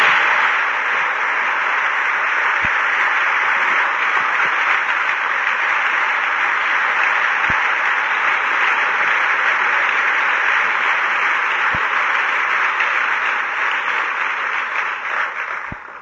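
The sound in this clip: Audience at Taylor University applauding to welcome a speaker: steady, dense clapping that holds at an even level for most of the time and then fades out near the end.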